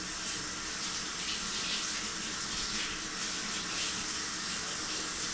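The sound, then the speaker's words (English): Running water from a sink tap as hands are washed under it, a steady, even hiss of flowing water that continues unbroken from start to finish. “I'm washing my hands right now.”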